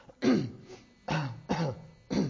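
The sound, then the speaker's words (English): Coughing while the microphone is covered: four short, rough bursts in quick succession, muffled and fairly loud, with no talking. “I'm trying to cover this so I can cough. I need a mute button.”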